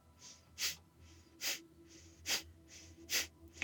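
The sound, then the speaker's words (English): Sharp breaths pushed out through the nose during a breathing exercise, with the belly pumping in on each exhale. Four faint, quick snorting exhales come at a steady rhythm, and another begins at the very end. “Sharp breaths out the nose. Belly pumping in on the exhale.”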